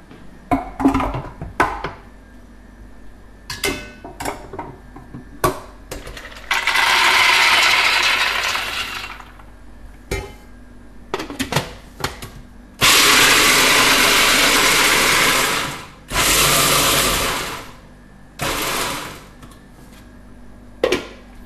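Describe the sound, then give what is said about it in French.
A food processor grinds hazelnuts in several loud, rough whirring bursts. Between the bursts come clattering, ratcheting knocks and rattles. “On va à la fois les mixer pour qu'il y ait de la poudre, qu'il y ait des morceaux de noisette, qu'il y ait des noisettes entières. Voilà. Il ne faut pas non plus trop mixer”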